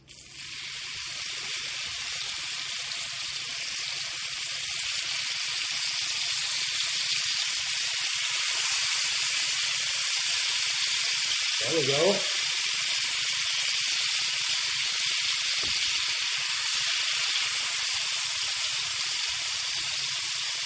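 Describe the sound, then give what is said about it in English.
Meat frying in butter in a pan gives a loud, continuous sizzle. The bright hiss builds over the first few seconds, then holds steady and unbroken for the rest of the twenty seconds. “The butter has finished talking, so let's put some of the meat in.”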